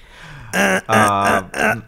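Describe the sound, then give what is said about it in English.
A person clears their throat against an irritating feeling in it: three loud, voiced, gravelly bursts in quick succession, the middle one longest, with short gaps between them. “I can't get this the feeling out of my throat no matter what I do.”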